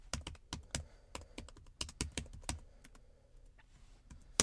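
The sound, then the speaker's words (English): Loud typing on a computer keyboard: rapid, irregular clacking keystrokes in quick bursts that thin out and slow toward the end. “I purposely typed loud.”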